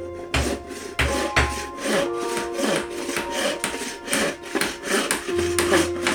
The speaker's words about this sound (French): Noé coupe des planches de bois et les cloue solidement pour fabriquer un bateau gigantesque